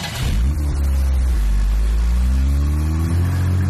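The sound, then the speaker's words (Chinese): Car engine starting and revving: an immediate loud, deep rumble that holds steady, then climbs in pitch as the engine is revved, running loud throughout with no talk. “陈军说着便发动了车。”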